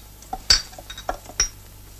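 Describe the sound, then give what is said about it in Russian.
Coins drop onto a floor with a few bright metallic clinks and jingles scattered irregularly, loud and with no voices. “Несколько монет упали на пол.”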